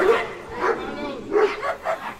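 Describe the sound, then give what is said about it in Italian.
Dogs bark and yip in a few short bursts beneath a man speaking Italian, with the barks rising over his voice at intervals. “Ma vedete, parliamo noi, ma qua anche i cani, chissà di chi parlano, che argomenti affrontano. Noi parliamo di coronavirus, chissà se loro... Perché anche i cani abbaiano,”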